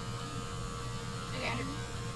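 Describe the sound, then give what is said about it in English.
Steady electric buzz of a Black & Decker electric razor shaving a leg, a continuous droning hum that runs unbroken for the whole stretch at an even level. “Dude, you gotta shave the rest of it.”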